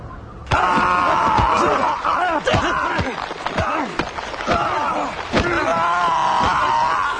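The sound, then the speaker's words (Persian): Three village men beating someone with punches and kicks in a radio drama: many sharp thudding blows, mixed with pained groans and strained cries, loud and continuous. “شکری نقش زمین شده و سه مرد روستایی حسابی اونو زیر مشت و لگد می‌گیرن.”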